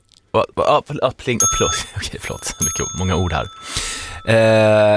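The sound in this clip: A small bell dings a couple of times in bright, ringing tones while people talk over it and around it.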